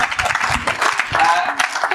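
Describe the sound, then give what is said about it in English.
Applause for a negotiation team at a training session: a dense, steady patter of many hands clapping, fairly loud throughout the two seconds. “That's a huge round of applause for our negotiation team.”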